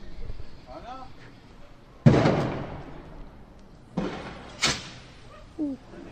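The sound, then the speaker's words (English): Tear gas canisters fired by the military during clashes with stone-throwing youths, heard as a few sharp, booming launch bangs with short decaying tails over low background noise. “They shoot gas. That's tear gas.”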